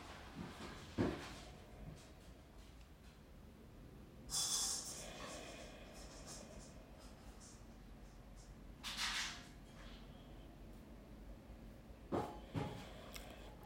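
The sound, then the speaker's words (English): A few deep, slow breaths taken during a quiet prayer, each a soft airy rush of inhale or exhale standing apart from near-silence, spaced several seconds apart with no voice over them. “And I take a few breaths.”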